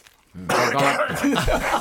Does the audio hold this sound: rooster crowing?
no